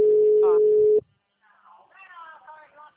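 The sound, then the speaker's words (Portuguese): A telephone ringback tone on a call: one steady, mid-pitched beep lasting about a second, then a pause before a faint voice starts talking. “Olha aí, ó. Como é que toca? Eu ligo assim pro meu. Atende aí pra você ver. Pode atender que vai tocar. Dá pra ouvir o barulho aqui.”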